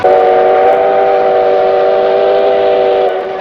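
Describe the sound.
A passenger train at a station sounds a loud, steady whistle, a sustained chord-like tone held for about three seconds before easing slightly at the end.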